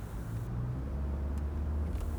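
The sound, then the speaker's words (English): Steady low rumble of a car being driven slowly into a town, an even, continuous engine and road drone with no talking. “I finally reached the next town over. Even though my boss is most likely still hunting me down, I, I have to drive slower.”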